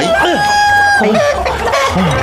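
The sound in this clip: A chicken clucks and squawks in agitation while someone chases it and tries to catch it. Several sharp, loud calls rise over a dense, steady background noise.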